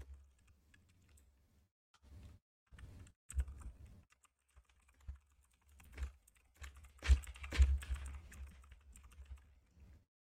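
Typing on a computer keyboard while writing a short text: faint, irregular clusters of key clicks with pauses between bursts, growing busier and a little louder toward the middle.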